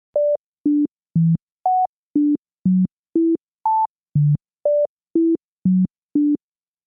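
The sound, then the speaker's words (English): Thirteen short, evenly spaced pure electronic tones play a well-known melody with each note shifted into a different octave, so the pitch leaps irregularly up and down. The notes are steady in loudness, with no voices. “So Diana takes a well-known tune, doesn't change the melody, just changes the range.”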